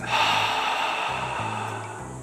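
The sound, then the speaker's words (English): A deep breath exhaled through the mouth during a breathing exercise, one long, airy exhale that starts strong and slowly fades, over soft, low sustained musical tones. “Inhale deeply. Exhale through the mouth.”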